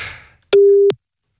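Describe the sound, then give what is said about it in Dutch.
A telephone busy tone sounds on a call-in line after the caller hangs up. A single steady beep of fixed pitch comes after fading background noise, followed by silence. “Ja, heeft Reinie nou opgehangen? Ik ga het gewoon opnieuw proberen.”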